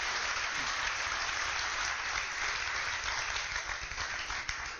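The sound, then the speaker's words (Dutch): An audience gives warm applause to welcome Iceman Wim Hof at the University of Twente in Enschede. The clapping is dense and continuous, a steady wash of many hands at an even level throughout. “Dames en heren, mag ik een warm applaus voor IJsman Wim Hof.”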